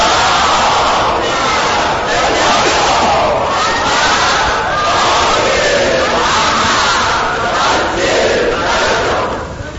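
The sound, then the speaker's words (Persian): A large crowd at a religious gathering loudly reciting salawat in unison, a dense, sustained roar of many voices chanting together with slight swells, continuing throughout. “و مظلوم کربلا آقا امام حسین با همه عزیزانش و تعجیل در فرج امام زمان صلوات بلند بفرستید.”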